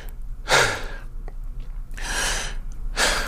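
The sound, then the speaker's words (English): Heavy breathing from a person out of breath after a gym workout: three loud, breathy gusts of air separated by short pauses, with quieter breathing between them. “Should have pushed pause and not recorded video after right after gym. Out of breath.”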